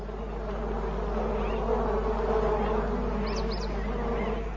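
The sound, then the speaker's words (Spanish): Bees buzz in a continuous droning swarm around a water well in hot weather, a steady, fairly loud hum that holds evenly throughout with no voices. “Intenta beber de un pozo, pero está lleno de abejas.”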